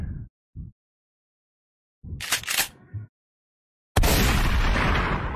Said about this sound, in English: Let me play the shotgun.